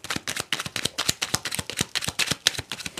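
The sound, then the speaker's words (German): A deck of fortune-telling cards is shuffled: many quick, crisp papery flicks and taps in a rapid, irregular rhythm, with no voices. “Ich habe mir letztens erst Karten gelegt, deswegen sind die Karten eigentlich noch ganz gut gemischt, meiner Meinung nach. Aber es fühlt sich auch gut an.”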